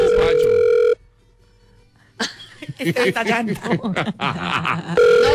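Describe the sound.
An unanswered telephone call produces a steady ringback tone. One tone plays at the start and another returns at the end, with a pause and a person talking between them.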